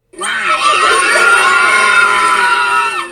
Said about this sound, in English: He paused to give way to the cheering,